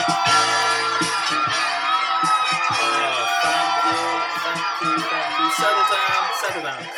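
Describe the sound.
A studio audience cheers and shouts during a show's intro, a dense, loud wash of whoops and crowd noise that stays steady throughout.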